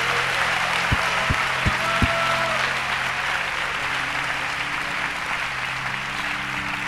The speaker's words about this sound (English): I want you to give him a really loud welcome. Okay, come on, let's welcome Pastor Ray Noah.